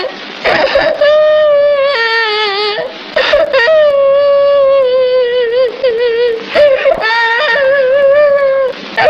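A child cries and wails in loud, high, tremulous sobs. A few long, drawn-out bursts are broken by brief catches of breath.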